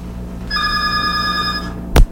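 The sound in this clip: A telephone gives a single bright electronic ring lasting about a second, followed by a short pause and a loud sharp click as the call is picked up.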